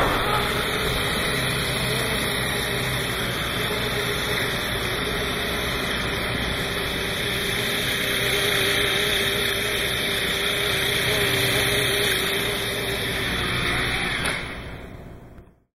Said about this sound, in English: So the sound you just heard is a sound of a new kind of flying vehicle called a cyclocopter.